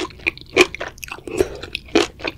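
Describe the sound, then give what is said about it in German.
Chewing of reddish, wok-roasted mushrooms, with a few crisp, moist bites and crunches spaced irregularly amid softer mouth sounds, moderately loud with no talk. “jetzt isst sie gerade diese Pilze”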